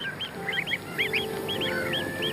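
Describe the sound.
Greylag geese honking in a repeated series of short, nasal calls that rise and fall in quick pairs and triplets over a steady outdoor background hum, with no voices.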